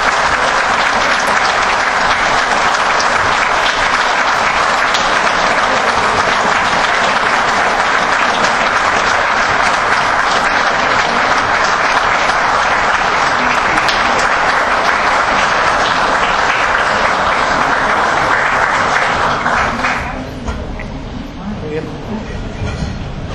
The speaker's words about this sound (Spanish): Natalia Martínez, a quien le damos un fuerte aplauso